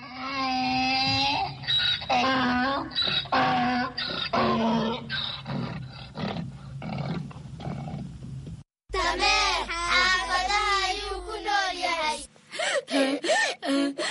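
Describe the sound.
Donkey braying: loud, harsh, rasping calls that repeat many times in a rough rhythm, with a short break partway through before the calls resume.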